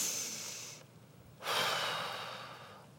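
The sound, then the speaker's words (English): Deep breaths blown out in two long, breathy exhales separated by a short pause. The second is louder and fuller, and no one speaks. “I want you to take 3 deep breaths like this. Blow it out.”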